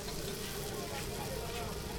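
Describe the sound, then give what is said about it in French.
Small blinis frying in oil in a pan as they are turned over and generously sprinkled with oil: a steady, dense sizzle that holds without a break. “On a des petits blinis et là elle est en train de les retourner et elle les asperge généreusement d'huile.”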